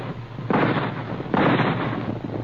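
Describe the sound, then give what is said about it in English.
Two rifle shots fired in a standoff, each a sudden burst of broad, rough noise that rumbles on for nearly a second. A steady hiss runs underneath. “At the sound of the rifle shots, the frightened caribou raised their antlered heads and began to run.”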